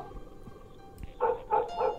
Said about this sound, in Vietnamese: Bầy chó chả biết làm sao tụ tập ở ngoài cổng, càng ngày càng đông, cảm giác như chó của cả khu này nó tụ tập về đây mà sủa ông ổng vậy.